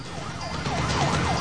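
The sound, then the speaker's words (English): Sirens wail as a convoy of state patrol cars speeds along a carriageway. Repeated rising-and-falling siren sweeps sit over a low vehicle rumble. “A convoy of state patrol cars is speeding along the carriageway opposite.”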